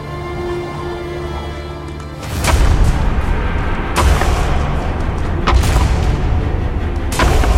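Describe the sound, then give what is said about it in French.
Horned males clashing heads in a fight over a female, with four heavy, booming impacts at uneven intervals over a continuous low rumble. “Un combat pour ses faveurs s'engage.”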